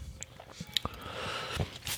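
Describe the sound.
Quiet biting and chewing of orange-flavoured chewing gum, with a few soft, irregular crunches and wet squishes spread across the moment and no voices.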